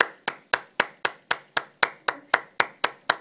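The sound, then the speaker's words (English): Sharp single hand claps repeat in a steady, evenly spaced series of about four per second, each crisp and alone, struck as a counting demonstration. “So when I did the clapping, when I went,”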